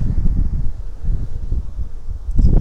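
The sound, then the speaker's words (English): Strong wind blowing outdoors, a loud, steady low rumble buffeting the microphone that swells again at the very end. “Big wind, can't block it.”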